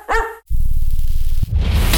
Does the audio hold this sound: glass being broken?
no